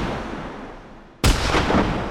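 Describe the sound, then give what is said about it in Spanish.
Police gunfire aimed at protesters during a violent clash near a bridge, amid tear gas: one sudden, sharp blast about midway, followed by sustained loud, rough noise. “¡Gases! ¡Disparos! Esta situación se ha descontrolado. La policía dispara contra los piqueteros.”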